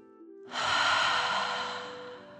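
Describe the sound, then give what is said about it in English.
A deep breath taken during a guided breathing exercise: one long, steady rush of breathy air that starts abruptly, holds fairly loud, then slowly fades, with no voices. “Breathe in through your nose and breathe fire out of your mouth. Again, deep breath in and out.”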